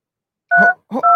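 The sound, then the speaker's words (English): Telephone keypad dialing tones during a call, two short steady beeps in quick succession, the second slightly longer, each loud and clear against near silence. “No, I think you're doing it wrong because I shouldn't hear you dialing.”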